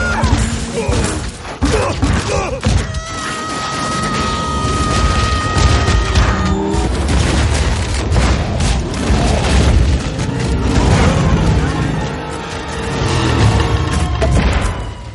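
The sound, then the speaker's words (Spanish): A spaceship crash-lands in a forest and smashes through trees: loud, sustained roaring rumble packed with repeated crashes, booms and thuds, some strained tonal whines, and a brief lull before more pounding impacts. “Bajan hasta un bosque y avanzan destrozando árboles.”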